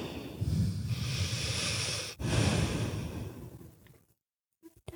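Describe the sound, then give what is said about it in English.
A deep breath is taken in a calm, guided moment: a long, breathy inhale and an equally long, breathy exhale with a brief pause between, then the sound fades into near silence. “Take a deep breath.”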